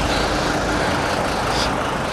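Steady engine rumble of a vehicle with a Mercedes engine and four-wheel drive being parked, an even, unbroken motor drone with no distinct events.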